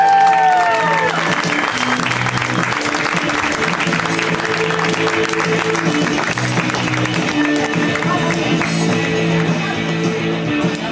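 A comedy crowd applauds a comedian with sustained, even clapping that stays full and loud throughout, while music plays underneath.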